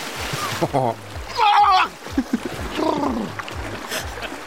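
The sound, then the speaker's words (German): Water splashing and sloshing as a person jumps into a cold outdoor swimming pool for a season-opening swim. Bursts of splashing mix with shouts and voices. “Ich lege das Mikro auf den Startblock. Okay. Und ich hoffe, du hörst mich planschen.”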